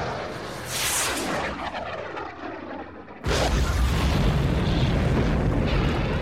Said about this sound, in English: I'm arming the ground-to-air missiles. This wave of TIEs is too close to get aloft. Target that hovercraft. The second wave of TIEs is in the distance. Copy that. Missiles away!